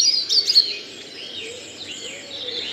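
Dawn chorus birdsong in a back garden in County Leitrim, Ireland, with bright chirps and warbled phrases from several birds overlapping at moderate volume. No voices are heard.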